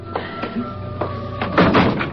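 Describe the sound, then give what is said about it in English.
A door being opened: a few soft clunks and knocks from the handle and latch, followed by a louder rattling thud near the end, with a faint steady hum underneath. “Let me get the door.”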